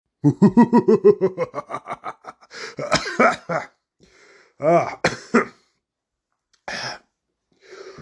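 Throat clearing and coughing from breading of mozzarella sticks lodged in the throat: a voiced, rasping start, then several harsh, separate bursts with short gaps between them.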